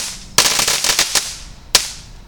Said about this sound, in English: Here we go with another crackle bomb out on the concrete.